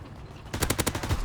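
Automatic gunfire in a real-time strategy video game battle: after a half-second lull, a rapid, loud burst of machine-gun shots rattles out in a fast, even rhythm until the end.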